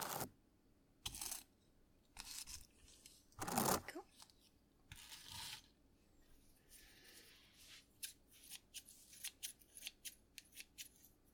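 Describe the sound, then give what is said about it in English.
Scissors snip through something meant to stay nice and even: a few loud, separate cuts come first, then many quicker, softer snips in an uneven rhythm. “that it's all nice and even, so that when I cut it, it will still be nice and even.”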